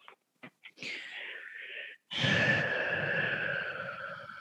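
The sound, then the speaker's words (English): A slow, deep breath taken at the start of a guided meditation, heard as two long airy breath sounds, the second louder, fuller and more drawn out, after a few small clicks. “So let's just start by closing our eyes and taking a deep breath.”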